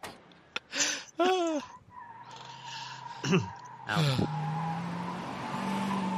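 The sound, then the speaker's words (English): Car tires squealing as the car speeds away at top speed: several sharp, wavering high screeches in quick bursts, followed by a steady, slowly rising engine drone that carries to the end. “that's the sound of Joe Pesci screaming, "You motherfucker, you," and then jumping into his car and like squealing away at top speed.”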